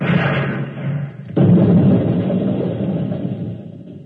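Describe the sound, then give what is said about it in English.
Gunfire and exploding bullets in a radio drama, as a ten-soldier honor guard fires at once: a low rumble, then a sudden heavy thud that opens into a loud, sustained roar and slowly fades. “Ladies and gentlemen, it's happened at exactly 11 a.m. 10 soldiers in the honor guard instantaneously fired their weapons into George of Xanthar. Apparently explosive bullets have blown him to smithereens.”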